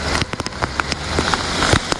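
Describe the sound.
Heavy rain pours down in Beypazarı, Turkey, a dense steady hiss of water with many sharp drop ticks and small crackles scattered through it, fairly loud and with no voices.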